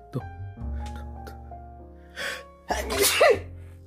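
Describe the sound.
A single human sneeze bursts out sharply after a short breathy intake, loud and abrupt against a faint steady hum, with no talk.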